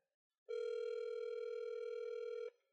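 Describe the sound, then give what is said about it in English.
A single steady telephone ringback tone sounds for an outgoing call, holding one even, unbroken pitch for about two seconds before cutting off cleanly, with nothing else heard around it. “Let's give Jake a call.”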